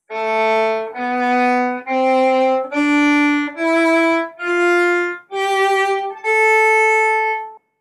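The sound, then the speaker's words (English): A natural minor scale from A to A played on a sustained, harmonically rich instrument: eight loud, steady held notes climbing stepwise in pitch, each separated by a brief break, with no talking. “So you can basically play the C major scale but start it on A, and you're going to end up with an A natural minor scale.”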